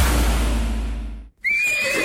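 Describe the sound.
A horse whinnies once, a high, quavering cry that begins right after a burst of broad noise cuts off, and trails away as the call weakens.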